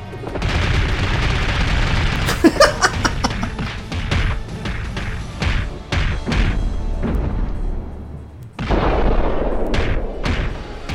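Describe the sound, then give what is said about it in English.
Gunfire from a character's gun in a fighting video game: a rapid series of sharp bursts and booming shots, some clustered in quick succession, over dense continuous game noise, with a short lull before the noise resumes. “Oh, Mystique had a gun, huh?”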